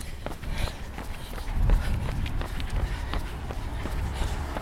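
A person runs, with steady, regular footfalls thudding at an even pace under a constant wash of background noise.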